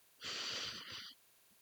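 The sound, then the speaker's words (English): A deep breath drawn in through the nose, heard as a single soft, hissing inhale lasting about a second, quiet and alone. “All right, now let's take some deep breaths in through the nose.”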